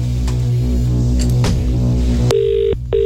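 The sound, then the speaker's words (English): A telephone rings during a prize call-in, a steady electronic tone broken into bursts that cuts in abruptly after a low continuous background and stops briefly before sounding again at the end. “Is it going to be your phone that rings?”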